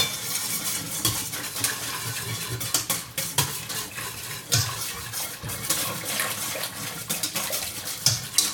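Sauce thickening in a pot is stirred and brought back to the boil, with a spoon scraping and clinking against the pan through a wet, bubbling hiss. The irregular clatter continues throughout, without talk.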